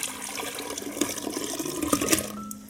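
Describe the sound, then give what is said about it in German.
Liquid pours steadily into a vessel: juice infused with essential oils and minerals being transferred. It makes a continuous, moderately quiet splashing and trickling that tapers off at the end. “Und jetzt können wir das umfüllen in ein schönes Gefäß”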